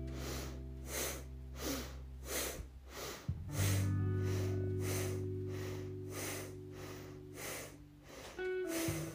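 Rapid, forceful bhastrika yoga breaths come in a quick, even rhythm of sharp snorting bursts through the nose, repeated many times over a steady, sustained tonal drone.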